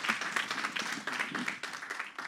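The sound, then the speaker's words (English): Audience clapping, a dense steady wash of many hands that holds at an even level for the whole stretch, with no voices standing out. “Awesome, guys. Let's clap it up.”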